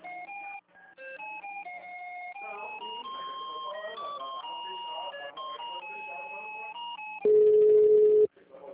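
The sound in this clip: A telephone call to a city hall goes unanswered, heard as electronic line tones: a run of beeping notes in shifting pitches, then a single loud, steady tone that cuts off abruptly.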